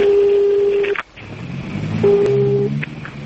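Telephone line tones as a business owner places a call from the Baku Main Customs Office: two long, steady beeps about a second apart, with low rumbling noise between them.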